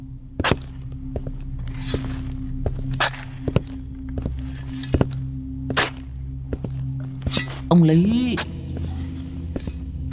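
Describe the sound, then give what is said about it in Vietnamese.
Footsteps treading over brick-tiled graves in a cemetery for the wealthy at midnight, a slow, uneven series of sharp thuds running throughout, with a brief voiced sound near the end. “đằng sau lưng của lão vang lên tiếng bước chân lịch bà lịch bịch, dẫm lên trên những cái tấm nấm mộ được người ta cẩn thận ốp gạch ong”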